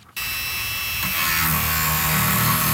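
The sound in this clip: A power tool cuts into 30,000-year-old fossil bone from the Yukon. After a brief near-silence it starts abruptly into a loud, steady, high grinding whine that grows slightly stronger after about a second.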